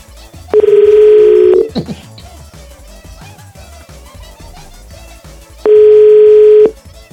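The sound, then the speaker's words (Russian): Telephone tones sound while a call is placed: two loud, steady single-pitch beeps of about a second each, several seconds apart, with quieter background sound between them. “Ну, как бы, давайте не побоимся и позвоним. Ну, хоть какой-то разок делает. Сейчас звоню.”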